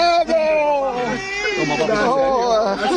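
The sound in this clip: A baby cries after being rescued from rubble, a loud, sustained, wavering wail with a tremulous, high-pitched tone that continues without a break.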